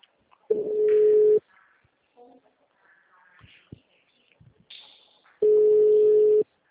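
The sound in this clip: Ringback tone of an outgoing telephone call: two steady, mid-pitched tones of about a second each, separated by a long gap that holds only faint, scattered background sounds.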